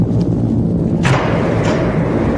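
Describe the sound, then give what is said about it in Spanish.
A submarine torpedo launch: a sharp thud at about one second with a bright burst of rushing noise, then a hissing whoosh that fades, all over a steady low rumbling drone with no talk. “Lanzamos el proyectil. A toda velocidad. Torpedo en el agua.”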